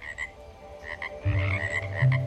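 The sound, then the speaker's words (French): Frog croaking in a garden, species unknown: two deep, buzzy croaks break in near the end over a steady, faint background. “je sais même pas quelle espèce de grenouille c'est”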